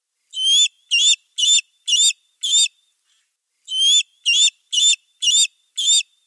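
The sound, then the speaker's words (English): A juvenile bald eagle gives its begging call: high, squealing whistled notes repeated in two bursts of five with a short gap between them, heard alone with no other sound. “That was the begging call of a juvenile bald eagle.”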